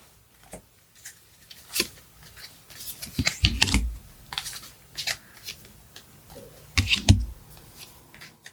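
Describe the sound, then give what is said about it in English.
A deck of reading cards is reshuffled by hand, with soft rustling and several sharper riffling and slapping bursts scattered irregularly and fairly faint. “One card was in between the books, so I have to reshuffle and repull.”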